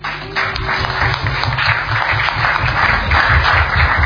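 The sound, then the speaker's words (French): Journalists applaud at a UN press conference, a dense and fairly loud clapping that runs steadily through the whole clip over a low hum. “Et une fois n'est pas coutume, je vais demander aux confrères journalistes de les acclamer.”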